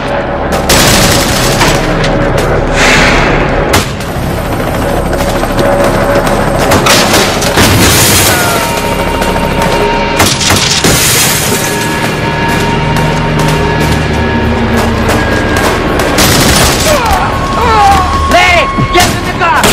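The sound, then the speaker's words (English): Rapid gunfire from semi-automatic weapons during a shootout with police: many loud, overlapping shots and bursts crack without pause across the whole stretch. “They're still shooting at us.”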